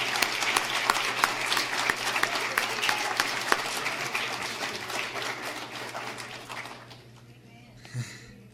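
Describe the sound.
An audience claps to welcome a graduating student back to talk about his time in Israel. The steady, dense applause holds over a low hum, then fades away, leaving a quieter tail with a single soft bump.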